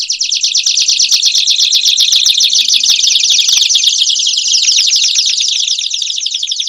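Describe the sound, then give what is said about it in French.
Several canaries sing together in a loud, unbroken mass of high trills and warbling phrases that overlap densely throughout, with no voices. “À présent, vous entendez des canaris.”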